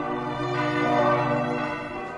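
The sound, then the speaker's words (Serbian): Church bells of Szentendre ring in a dense, continuous wash of overlapping metallic tones, steady and moderately loud throughout, with no pauses and no separate strikes standing out. “Kakav je odjek tih sent-andrejskih zvona među onim planinama?”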